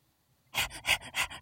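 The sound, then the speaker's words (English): A person imitates a crocodile panting: after a short silence come four quick, breathy huffs in a steady rhythm. “Crocodile's panting.”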